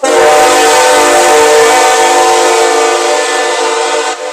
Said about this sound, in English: The train is here, and we are pursuing truth.